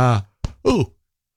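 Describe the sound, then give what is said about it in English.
A person gives a brief, voiced yawn, heard as a low, drawn-out moan followed by a short breathy catch and a falling groan, all within about a second, loud and close against silence. “Sorry, just did a bit of a yawn there.”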